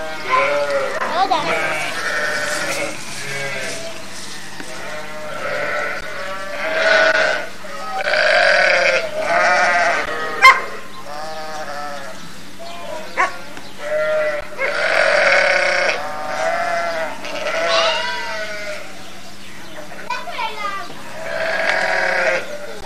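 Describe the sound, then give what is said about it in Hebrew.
Sheep bleat again and again, many wavering, nasal calls that overlap and continue throughout, over a steady low hum. “אתה אוהב את הכבשים? אתה אוהב את הכבשים?”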